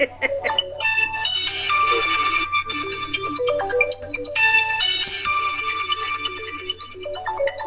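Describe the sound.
A mobile phone ringtone goes off at a women's gathering, a bright, loud melodic electronic tune that plays its phrase, then repeats it, over a faint low hum.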